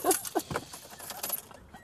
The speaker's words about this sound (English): Stick it in and turn the key. Let's try it again.